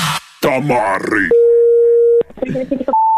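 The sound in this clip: Phone line tone after the other party hung up: a steady mid-pitched tone about a second long cuts in after loud talking. Voices speak again after it, then a higher steady tone starts at the end.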